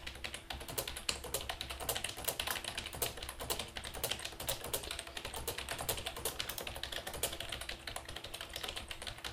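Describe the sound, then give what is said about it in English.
Typing on a computer keyboard into a Microsoft Word document: many quick, light key clicks in a steady, uneven stream, fairly faint, with no talk. “We can type in something in Microsoft Word here.”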